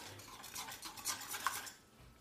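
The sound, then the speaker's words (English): Brisk scrubbing of a jam pot being cleaned, many short rhythmic strokes in quick succession, quiet overall and trailing off near the end. “After some time, the pot will be so clean.”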